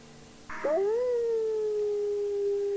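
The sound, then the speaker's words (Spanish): A wolf howl: one long, fairly quiet tonal call that rises briefly at its start, then holds a steady, drawn-out pitch for a couple of seconds over faint background hiss. “Los oímos, están aullando. Y con este sonido maravilloso de los lobos aullando,”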